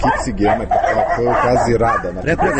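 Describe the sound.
Stray dogs kept in a small garden shelter bark and yip under steady narration, with short, repeated barks mixed through the talking voice.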